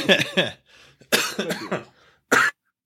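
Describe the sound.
A person with a raw, sore throat coughs harshly: a rapid cluster of rough coughs, then a longer rasping spell, then one final sharp cough, all fairly loud with short silences between.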